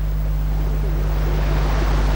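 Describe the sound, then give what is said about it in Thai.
Sea water floods into a mangrove forest as a continuous, loud, rushing wash with a low rumble beneath, steady from start to end. “น้ำทะเลที่ไหลท่วมพื้นที่ป่าได้พัดพาเอาซากใบไม้ที่ตายทับถมกันพร้อมกับธาตุอาหารออกสู่ท้องทะเล”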